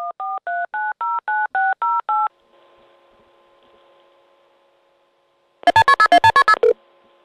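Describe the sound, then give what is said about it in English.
Touch tones from an iPhone 4 as a phone number is dialed: a quick, evenly spaced run of short beeps, then a low, faint steady tone. A second loud burst of rapid beeps follows. “carefully picked up his now ancient-looking, almost prehistoric, iPhone 4, and dialed the number.”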